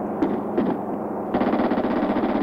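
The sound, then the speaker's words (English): Gunfire from someone shooting: a couple of sharp reports, then a rapid, steady burst of repeated shots, loud and harsh, with no voices. “Someone shooting!”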